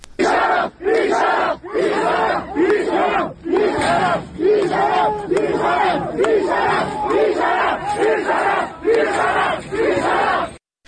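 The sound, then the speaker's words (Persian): Medical sciences students protesting at a university in Ardabil chant in unison, a loud crowd repeating many short, rhythmic shouted phrases separated by brief pauses. “صدای این اعتراض ها را از اردبیل میتونیم بشنویم.”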